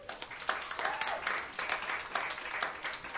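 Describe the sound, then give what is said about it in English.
Audience applause welcoming a performer to the stage at a songwriters' showcase night: dense, steady clapping from many hands that holds at an even level throughout, with no voices standing out. “Please put your hands together.”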